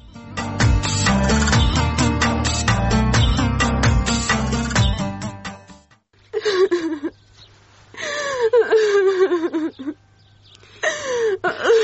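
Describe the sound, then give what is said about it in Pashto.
A girl cries in a drama scene, with whimpering sobs in short, wavering bursts whose pitch falls. The crying comes after a stretch of steady music. “نوره مه ژاړه، له ژړا څه نه جوړېږي”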